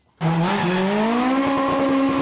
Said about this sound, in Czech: Slunce ještě nezapadlo a první jezdci už se vydali na trať městské rychlostní zkoušky, která v centru Zlína otevírá letošní Barum Rally.